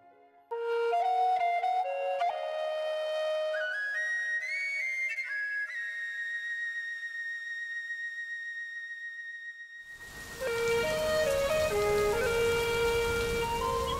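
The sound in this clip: Heavy rain falls on a July night in a poor southern countryside village. Ringing melodic tones play alone for about ten seconds, then a dense, steady hiss of rain comes in beneath them and holds until the end.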